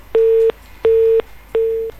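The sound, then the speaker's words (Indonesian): A busy tone sounds after a dropped phone call: three loud, evenly spaced beeps at one steady pitch, each lasting about a third of a second. The beeps are separated by brief gaps, with no other sound. “Loh, terputus teleponnya ya. Baru dang dang dang tut tut tut.”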